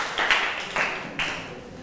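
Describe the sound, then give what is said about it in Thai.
Students in a classroom clap for a classmate who has just given a correct answer. The clapping is brief and comes in a few ragged bursts of moderate loudness, with no talking over it. “เป็นคำตอบที่ถูกต้องค่ะนักเรียนปรบมือให้เพื่อนค่ะ”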